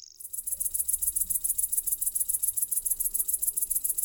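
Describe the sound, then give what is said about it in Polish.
Great green bush-cricket and cricket chirping: many rapid, high-pitched pulses repeat in a steady, even rhythm throughout, fairly loud with no voices. “Dla porównania warto posłuchać przez chwilę głosu pasikonika zielonego”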